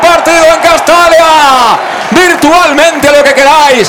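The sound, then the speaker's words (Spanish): Stadium crowd celebrating at Castalia at the end of a football match, CD Castellón beating SD Logroñés 1-0, with loud chanting and shouting voices rising and falling in a strong, sustained wave. “Lo celebran por todo lo alto los jugadores, lo celebra por todo lo alto el público que ha venido ya a Castalia, que ha sufrido, se ha enfadado, ha animado y ha celebrado al final.”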